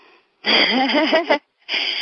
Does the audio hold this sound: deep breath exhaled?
yes